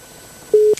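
A telephone busy signal after a caller hung up: a single short, steady mid-pitched beep, loud and clean, followed by a brief burst of noise.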